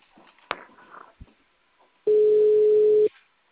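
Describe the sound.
Ringback tone of an outgoing telephone call: one steady, single-pitched beep lasting about a second. Faint clicks and low background noise come before it, and the line then falls quiet.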